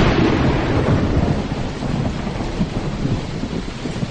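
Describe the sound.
Heavy rain with rumbling thunder, a dense, continuous roar of downpour under a deep, rolling rumble that stays loud and steady throughout, with no voices.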